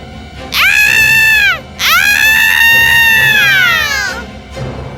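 A screaming sound effect with a cat-like wailing quality: two loud, tonal cries, the first about a second long, the second longer and more sustained, each sliding down in pitch at its end.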